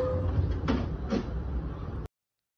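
Subway train noise: a steady, dense rumble with two brief hissing, squealing swells, ending in an abrupt cut to silence.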